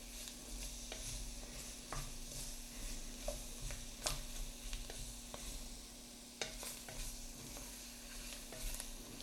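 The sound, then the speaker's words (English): Stirring and sizzling as chopped Cajun holy trinity vegetables are coated in a roux for a venison piquant: many scraping spoon strokes over a steady frying hiss, with a constant low hum underneath. “So we're getting all of that coated with the roux. And we're gonna let that cook just for just a few minutes.”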